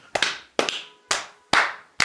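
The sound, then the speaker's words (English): Hand claps from a dance routine: five sharp, crisp claps in a steady, even rhythm, each ringing briefly before the next, with no talking. “right down, left down, right up, left up, and then you roll your hands like maracas, and then you clap”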